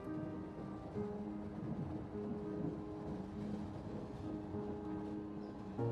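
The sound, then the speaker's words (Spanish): Moving train giving a steady, droning rumble, a continuous low hum with faint tonal lines and no distinct rail clatter, fairly quiet throughout. “El tren está en movimiento.”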